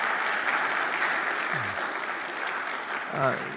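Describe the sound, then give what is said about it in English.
Congregation applause at a church welcoming the pastor's wife as a guest: dense, steady clapping that holds at an even level throughout, with a couple of brief vocal whoops rising through it. “Put your hands together and welcome Jennifer.”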